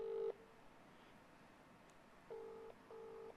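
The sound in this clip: A phone call ringing out on speakerphone: faint ringback tones in a double-ring pattern, two short bursts with a brief gap, then a pause, with no talk.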